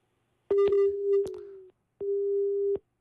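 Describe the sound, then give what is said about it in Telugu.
Busy tone on a phone line after a call drops: two steady, low-pitched electronic beeps with a short gap between them, the first longer and marked by a few clicks. “Okay, caller line cut అయినట్టుంది.”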